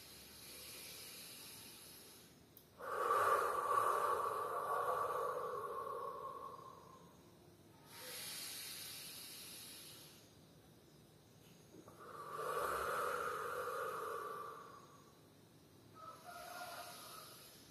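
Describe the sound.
Deep, exaggerated breathing during a guided breathing exercise: a few slow, long, airy breaths with soft hissing inhales and exhales, separated by quiet pauses and faint overall.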